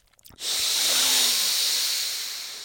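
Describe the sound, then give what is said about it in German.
A single long, steady inhale through the left nostril, the right one pressed shut, during a guided breathing exercise. The airy hiss starts abruptly, holds fairly loud and even, and then fades slightly toward the end. “Dann drücke mit dem Daumen deiner rechten Hand leicht deinen rechten Nasenflügel zu und atme links ein.”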